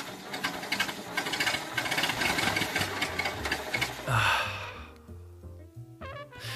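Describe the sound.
Vauxhall Cresta car engine being started: a rapid, rattling, knocking churn that builds into a brief louder burst. It is followed by a quieter, uneven low rumble with sparse mechanical clatter.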